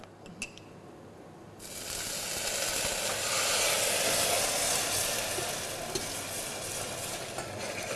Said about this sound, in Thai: เราต้องใช้ไฟอ่อนนะครับในการเคี่ยวนะครับแล้วก็สามารถเติมน้ำเปล่านะครับเล็กน้อยนะครับ